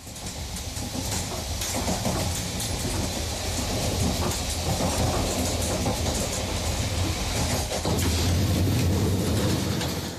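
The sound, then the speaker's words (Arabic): A train on the line from Naples toward the two buried cities rolls along with a steady, loud rumble and a continuous clickety-clack of wheels on rails, with no voices. “نبدأ رحلتنا من نابولي لأن القطار إلى المدينتين المدفونتين ينطلق منها”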